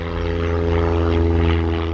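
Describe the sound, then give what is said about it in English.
Planes climbing from an airstrip beside an Airbus wing factory in Broughton, North Wales: a loud, steady propeller drone with a strong, buzzing low hum that holds throughout, without voices. “Planes buzz up from an airstrip next to the site run by aerospace company Airbus.”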